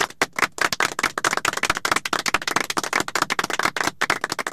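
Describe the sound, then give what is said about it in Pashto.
Hand clapping for a contestant's correct answer on a quiz game show: many sharp, distinct claps in a fast, slightly uneven rhythm, loud and crisp, with no talk over them. “چک چک ورته”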